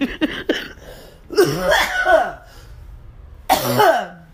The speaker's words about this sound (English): Oh, I think I just hacked up a lung. Excuse me.